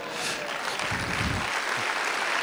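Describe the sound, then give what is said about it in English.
Audience clapping at a church worship service: dense, steady applause from many hands, even in loudness throughout, with no talking over it. “Come on, if you're gonna clap, give a decent clap.”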